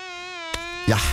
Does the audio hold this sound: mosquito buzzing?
yes